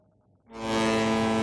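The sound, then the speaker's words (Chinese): A fishing boat horn sounds in a fishing harbour as fishing boats head out to sea at the start of the fishing season. After a short quiet stretch, a loud, rich, steady blast begins and holds without a break. “在霞浦丹沙中心渔港福鼎沙城港，渔船汽笛声、发动机轰鸣声此起彼伏，渔船迎浪前行。”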